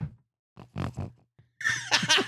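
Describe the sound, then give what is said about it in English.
Pet pig oinking and grunting while sitting in someone's lap: a few short, nasal grunts, then a louder, higher, squealing burst of oinks at the end. “if you hear any oinking in the background, it's because Mabel is executive producing right now”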